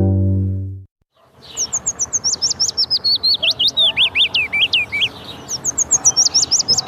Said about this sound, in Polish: Piecuszek. Jego śpiew składa się z charakterystycznej, stopniowo opadającej sekwencji dźwięków. Jest miły dla ucha, melodyjny, miękki i nieco melancholijny.